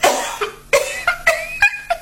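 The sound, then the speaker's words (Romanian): A deliberately performed, theatrical cough imitating the consumptive cough of a tragic stage heroine: several short, rasping bursts in an uneven rhythm, each with a voiced, throaty edge and brief pauses between, loud and without talk. “Dar stai, tu ca medic, așa, ce zici, eu aș tuși bine în rolul ăsta?”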